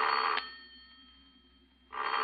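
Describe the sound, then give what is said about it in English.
A telephone bell rings in two loud, buzzing bursts separated by a quiet pause, with no voices. The phone rings after a four-digit number is dialed on the line. “There's nobody on the line, you see? Because the four numbers I just dialed make your own phone ring.”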